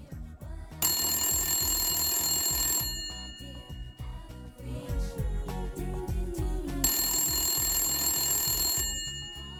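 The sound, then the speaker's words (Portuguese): A telephone rings while a call is placed, two long bursts of bright, buzzing ringing separated by a pause, loud over a steady pulsing background. “Vamos ligar para ele.”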